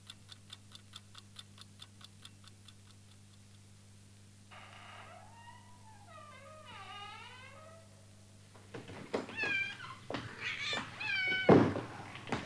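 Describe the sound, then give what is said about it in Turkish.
A cat meows several times in a house, with rising and falling cries, after a steady ticking clock; louder knocks and clatter follow as the cat is shooed away. “Şu kedi. Pıst, çekin şuradan.”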